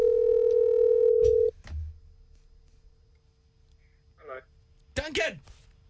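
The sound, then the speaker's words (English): A telephone dial tone holds steady and loud for about a second and a half, then cuts off with a couple of sharp clicks, followed by a quiet stretch and a few short bursts of line sound. “Okay, dialing through to Garner now.”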